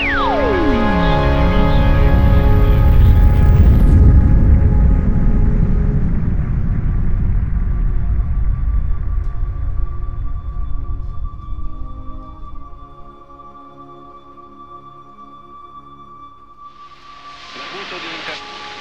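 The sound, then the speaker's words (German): Roaring rocket engines of a space probe lifting off: a loud, broad rumbling roar that slowly thins and fades over about twelve seconds, with a falling whine at the start and faint sustained tones beneath. “all engine running. Liftoff, we have a liftoff.”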